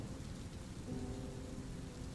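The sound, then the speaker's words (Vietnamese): Heavy rain pours down on newly sown fields, heard from under the eaves as a dense, even hiss that holds steady throughout with no voices. “mà bây giờ mưa lớn vậy”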